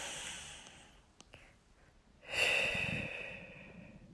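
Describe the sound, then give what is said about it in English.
A person breathing in and out through the nose: a soft, faint breath at first, then a longer, louder airy breath that trails off slowly. “If you just put your finger beneath your nose and breathe in”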